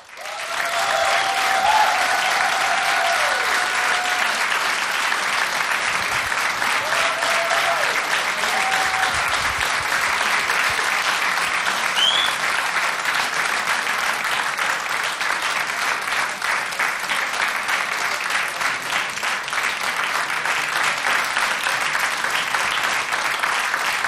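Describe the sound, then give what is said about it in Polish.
Audience applause in a radio studio: dense, steady clapping that holds an even, loud level without a break from start to finish. “Ponieważ w radiu nie może być ciszy, to jeszcze Państwa poproszę do oklaski, bo oni się właśnie podpinają.”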